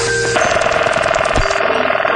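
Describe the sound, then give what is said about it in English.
A 1970s telephone ringing with a loud, rapid, continuous bell trill that lasts about two seconds. “Here's a collection of telephone sounds of the 1970s.”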